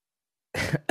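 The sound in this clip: A short throat-clearing cough from a man mid-conversation, bursting out of silence in one rough push and followed by a second brief burst right at the end.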